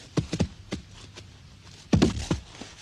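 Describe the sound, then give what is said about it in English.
Hoofbeats of a cowhand's horse pounding down a dusty road and pulling up at a saloon, as a radio-drama effect: a few thudding clip-clops, a short gap, then a heavier cluster of hoof strikes. “that cowhand came pounding down the road, pulled up his horse in front of Darby's saloon”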